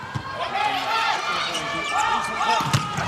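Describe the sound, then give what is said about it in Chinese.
Ball strikes in a volleyball match as China serves to open the second set, dull impacts standing out briefly against steady crowd noise and continuous commentary. “好，来看双方的第二局，中国队来发球”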